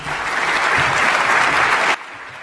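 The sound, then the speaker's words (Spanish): Audience applause for the prize winners at an award ceremony: dense, steady clapping that holds at an even, loud level for about two seconds, then cuts off sharply, leaving only faint room noise. “Un fuerte aplauso para todos los premiados.”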